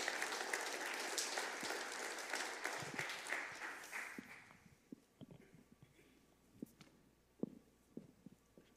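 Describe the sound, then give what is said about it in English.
An audience applauds to welcome the head elder forward. Dense, steady clapping lasts about four seconds, then thins out into a few scattered claps that fade away. “if you can put your hands together and welcome Rick Good to come and join us”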